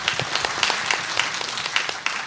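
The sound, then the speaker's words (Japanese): An audience applauds to welcome a company executive on stage at an investor presentation. It is a steady patter of many hands clapping, fairly even in loudness, with no voices over it. “皆様大きな拍手でお迎えください。”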